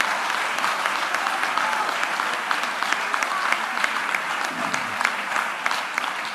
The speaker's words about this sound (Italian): Grazie Gesù, facciamo un applauso al Signore, un applauso.